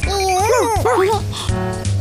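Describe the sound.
A puppy gives a few high, wavering yips and whimpers, close together and fairly loud.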